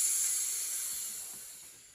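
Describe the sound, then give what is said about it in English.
A voice imitates a python's hiss: a breathy, high-pitched hiss held for about two seconds that slowly fades, with no other sound. “And soon they met a crocodile, snap, and a wolf, ow, a python.”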